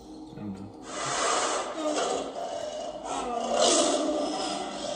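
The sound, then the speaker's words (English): A voice imitates a monster roar during a tabletop role-playing game, producing a raspy, breathy, hissing growl that swells and holds for several seconds without a break. “that's not the roar I wanted. I said monstrous roar.”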